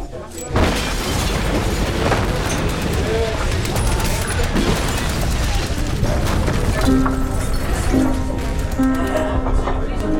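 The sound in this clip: Heavy booms and bursts of bombs falling and exploding in wartime near the Normandy coast in June 1944, forming a dense, loud, continuous roar of blasts and rumbling throughout.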